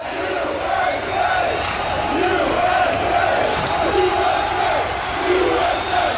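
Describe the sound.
Massed voices of a Seattle football crowd chanting a very simple song, a loud, sustained sung drone that swells in waves without pause.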